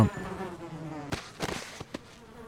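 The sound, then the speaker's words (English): Buzzing bees, a droning harmonic hum that fades and is followed by a few sharp clicks and short bursts. “wait for these bees to come back and then I'll kill them”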